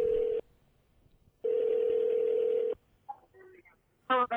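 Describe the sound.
Telephone tones while a call is being dialled: two long, steady, low-pitched tones separated by a pause, then brief faint chirps, and a voice starting at the very end.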